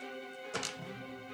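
Four-sided dice (D4) rolled on a table during a game make a few light, brief clattering taps, faint against a steady humming background.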